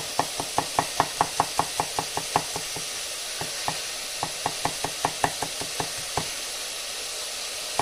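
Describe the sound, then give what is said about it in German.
A knife chopping garlic on a board makes a long run of quick, sharp knocks. They come in fast bursts at first, then grow sparser and more irregular, over a steady background hiss. “Da Knoblauch ein bisschen klein schneiden.”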